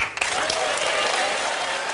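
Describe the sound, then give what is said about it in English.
A studio audience cheering: a thick, steady roar of crowd noise mixed with clapping that stays loud and fairly even across two seconds. “You can tell by the cheers from the studio audience that he's not the only one who thinks that.”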